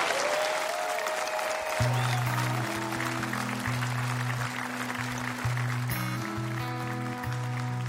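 Audience applause welcoming a country singer onto the stage: steady, dense clapping throughout, with a band's music entering beneath it after about two seconds.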